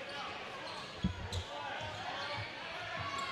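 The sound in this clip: A basketball is dribbled several times before a free throw during a game. The dull, faint bounces fall at an irregular pace over steady background noise.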